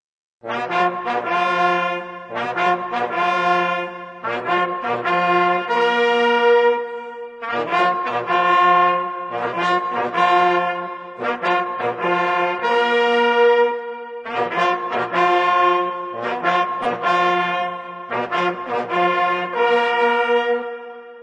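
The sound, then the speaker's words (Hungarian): A hunting horn sounds the call signalling departure for the hunt. Bright, brassy held notes come in a series of loud phrases separated by brief gaps, and the pitch shifts between notes. “Vadászatot irányító kürtjelek. Indulás a vadászatra.”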